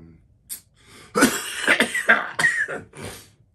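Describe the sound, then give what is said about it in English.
A fit of coughing from a person with a slight cough: a rapid series of several harsh, breathy coughs of varying loudness, with no talk alongside. “got a little cough.”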